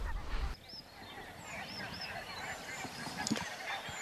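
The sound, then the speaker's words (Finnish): A flock of geese honking on a pond at dawn, many faint overlapping calls scattered throughout over a soft steady background, with a short rumbling noise at the start. “nyt me nähdään jo ihan selvästi paljon silmilläkin, että se on ihan, ihan täynnä mustia pisteitä, että siellä niitä hanhia on.”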